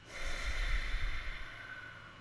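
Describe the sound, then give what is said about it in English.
A long, slow breath out during a guided breathing exercise, a soft airy rush that swells and fades over about two seconds, heard alone and quiet. “Long one out. Long breath in. Long breath out.”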